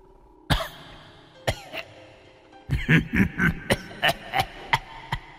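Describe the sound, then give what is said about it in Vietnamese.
An old man coughing inside a house: a few separate harsh coughs, then a rapid run of many hacking coughs in an uneven rhythm, fairly loud, with no talking. “Bên trong nhà vang lên tiếng ho khổ khổ khổ khổ.”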